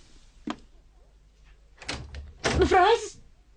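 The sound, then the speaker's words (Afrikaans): A room door swings shut suddenly with a single sharp, loud thud. Quiet follows, then a voice is heard. “Kamer se deur is nooit toe nie. Nu skielik.”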